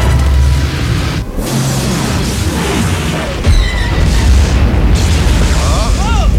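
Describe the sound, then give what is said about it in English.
A film explosion blast roars as a dense, sustained wall of rumbling noise with a heavy low end, with a fresh sharp burst near the middle and the roar continuing loudly to the end. “The blast came from the Death Star.”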